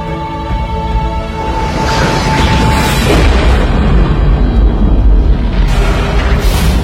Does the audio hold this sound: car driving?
no